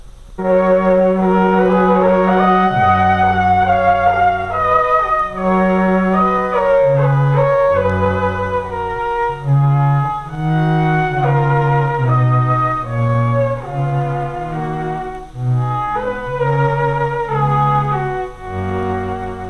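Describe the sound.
Four string-quartet parts play together on an electronic instrument, layered sustained tones weaving in slow harmony at a full, steady volume for about twenty seconds.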